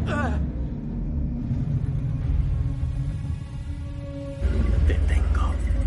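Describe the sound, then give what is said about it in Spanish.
Deep engine rumble of a red Audi reversing in an action-thriller car scene, a steady low drone that swells noticeably louder near the end. “El Audi rojo da marcha atrás.”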